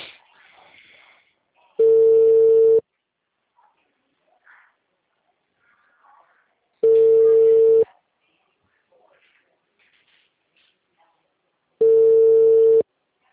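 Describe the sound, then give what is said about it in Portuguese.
Telephone ringing tone on an outgoing call: three steady one-second tone bursts spaced about five seconds apart, with near silence between them. “Agora te chamando.”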